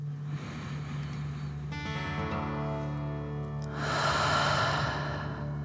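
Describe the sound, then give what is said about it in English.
A deep breath drawn in and let out during a guided breathing exercise, heard as two broad airy swells with the second one louder, over a soft sustained musical drone. “let's take another deep dragon breath. Fill up your chest and belly, in and out.”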